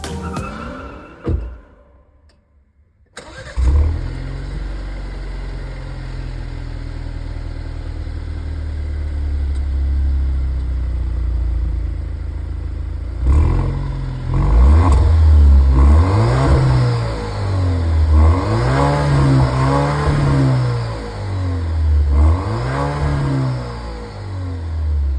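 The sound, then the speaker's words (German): An engine from an Italian legendary car idles with a steady low hum, then is revved several times in the second half, its pitch repeatedly rising and falling as it grows louder. “Genau, jetzt kommt direkt die nächste automobile Legende. Wir horchen mal in den Sound rein, würde ich sagen. Der Sound.”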